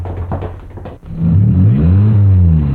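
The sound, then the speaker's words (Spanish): Cars driving along a street: a steady engine rumble with a wavering, shifting pitch that swells and holds loud after a brief busier, noisier opening. “¡Cuidado con los carros, oye!”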